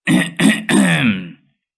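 An old man clears his throat in three rough bursts, two short ones followed by a longer rasp that trails away, alone with no other sound.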